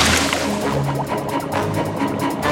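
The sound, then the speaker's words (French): Water sloshes and bubbles in a pot of boiling water with noodles cooking in it, a dense, continuous liquid churning that stays steady throughout with no voices. “Oggy a juste le temps de saisir Didi et de plonger dans une marmite d'eau bouillante où cuisent des nouilles.”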